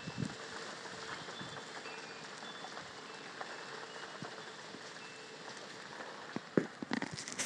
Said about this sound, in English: And I've got the window open in the bedroom and the rain's blowing in at me with the wind.